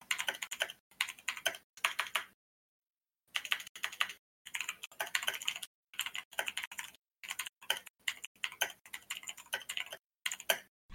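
A message typed on a computer keyboard: quiet, rapid clicking in irregular bursts with short pauses and one longer gap early on, and no voices.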